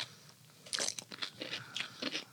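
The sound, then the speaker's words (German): Biting and chewing a crunchy cucumber with mustard: several crisp, sharp crunches come at an irregular rhythm, fairly faint and with no talk. “Kann man mal mit Gurke probieren, oder? Ach. Wir haben ja hier Gurken. Oh, nur ablecken. Und jetzt probieren wir das mal.”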